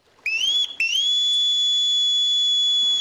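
A whistled signal from a window: two short rising whistles, the second swelling into a long, steady high tone that holds, loud and alone, to the end.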